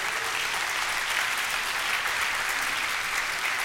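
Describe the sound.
A church audience claps to welcome the mayor to the front, a dense, even wash of applause that holds at a steady level throughout with no voices rising above it.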